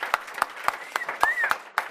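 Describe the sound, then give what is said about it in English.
Steady rhythmic clapping from an audience, about seven or eight sharp claps at roughly three per second, with a faint whistled tone rising and falling near the middle. “So how about a really big applause for everyone who's making this possible?”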